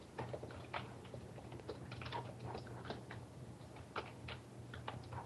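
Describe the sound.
Rapid, irregular clacking of keys on a loud computer keyboard, many sharp clicks in uneven bursts, faint overall and set over a low steady hum.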